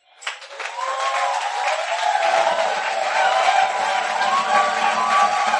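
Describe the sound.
A church audience cheers and applauds. The clapping rises quickly after a short silence into a loud, sustained crowd roar, with shouted voices and whoops riding over the steady clapping throughout.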